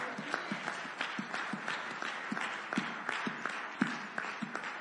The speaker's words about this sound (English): If you believe you're going to be fed, go ahead and make some noise this morning.